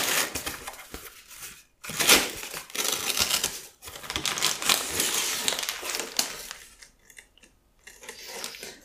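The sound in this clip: Paper packaging is torn open and crumpled during unpacking, producing irregular bursts of crisp rustling and ripping, separated by a few short pauses and varying in loudness.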